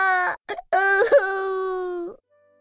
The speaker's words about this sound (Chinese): 他不停地哭着，哭得可伤心了。